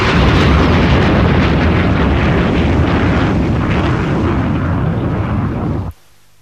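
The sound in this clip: A loud, rumbling blast from an incoming missile in a video game, a dense roar that holds steady for about six seconds and then cuts off abruptly into near silence.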